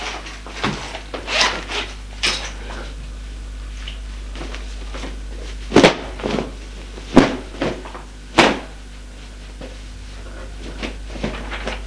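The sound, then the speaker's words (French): A cupboard is opened and belongings are packed into a suitcase: scattered wooden knocks, thumps and soft rustles with quiet gaps between them, over a constant low hum. “Ouvre le placard pour prendre ses affaires. Et dans une valise.”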